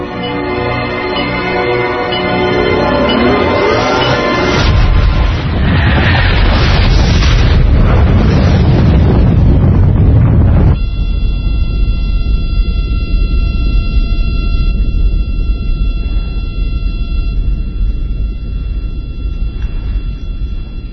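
Explosion blast after a detonation: a loud, roaring rumble lasting several seconds, then a steady droning hum with high tonal whines that carries on to the end.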